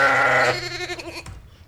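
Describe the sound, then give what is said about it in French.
Sheep bleat in a field among cows and sheep in Corrèze, France: one loud, wavering bleat opens, then quieter, quavering cries trail off. “au milieu des vaches et des moutons.”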